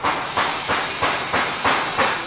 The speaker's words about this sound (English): Today, a group of about 10 young guys are working on a weld.